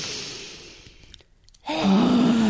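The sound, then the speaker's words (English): Dragon breath, a deep breathing exercise done with the tongue stuck out: a soft, fading breath, then a sudden loud, forceful voiced exhale that holds steady to the end. “Deep dragon breath.”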